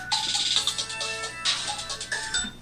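A telephone ringtone plays bright, melodic electronic tones in a quick repeating pattern at steady, moderate loudness, with no voices.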